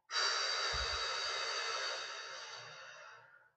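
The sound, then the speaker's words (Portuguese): A single long, forceful breath rushes out through the mouth as part of a guided deep-breathing exercise. The breath stays loud and steady, then fades away over a few seconds, with no voices. “Respira fundo, segura até quatro. Solta.”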